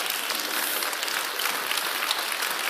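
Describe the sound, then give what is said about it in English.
A standing audience applauds servicemen and servicewomen with dense, steady clapping. The applause stays at an even level throughout, with no voices. “give a round of applause for all those soldiers, whether they're men or women, that have served our military”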